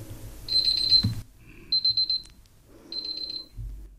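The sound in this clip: An alarm rings to mark the end of the allotted speaking time, giving three bursts of rapid, high-pitched beeping separated by short pauses, with a low rumble in the background.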